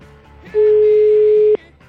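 A ringback tone sounds on an outgoing phone call: one steady, mid-pitched beep lasting about a second, set between quiet stretches of faint background noise.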